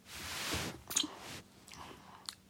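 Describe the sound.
Moist chewing of chocolate with a whole hazelnut inside, with a few soft crunching bites and squishy mouth clicks. Quiet, uneven bursts alone, with a sharper crack near the middle.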